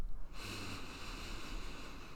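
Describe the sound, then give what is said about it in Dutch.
A deep breath drawn in during a guided breathing exercise: a steady, airy hiss that starts shortly after the beginning and holds evenly for nearly two seconds, with no talking over it. “Dus al je angst en pijn en al je kwetsuren probeer je uit te ademen. Dus we ademen in.”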